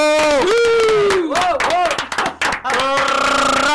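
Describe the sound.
Loud cheering and whooping voices with some clapping for a performer at a street art event. The shouts come in a few bursts that rise and fall in pitch.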